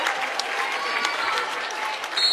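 Audience applause fills the arena at a basketball game as players leave the court, a steady, loud wash of many hands clapping that holds without pause.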